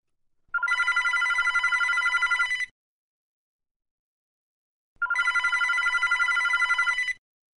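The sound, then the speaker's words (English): A telephone rings twice for a call between two friends. Each bright, trilling ring lasts about two seconds, separated by a silent pause of similar length, with no voices. “imagine a telephone call between two friends going to the movies”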